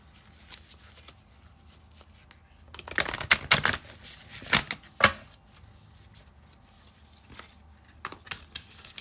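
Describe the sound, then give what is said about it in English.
Cards are pulled from an oracle card deck, heard as a few short papery riffles and snaps clustered in the middle. Quiet stretches come before and after them. “Let's pull from the Moon deck.”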